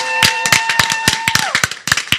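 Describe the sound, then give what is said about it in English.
Scattered, uneven claps from an audience at a church service, clapping for the Lord Jesus. Sharp separate hand claps come at irregular gaps rather than blending into full applause, and no voices are heard. “Clap for the Lord Jesus for this opportunity. Yeah. Now your clapping is a little anemic. It's a little anemic.”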